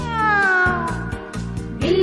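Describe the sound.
A cat meowing: a long, loud meow that slides downward, then a second, rising meow near the end, over a backing track with a steady, regular beat.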